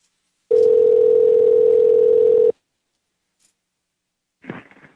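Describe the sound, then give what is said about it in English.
A telephone dial tone hums at one steady pitch, loud and unbroken for about two seconds before cutting off, followed by silence and a short faint rustle near the end. “I'm dialing.”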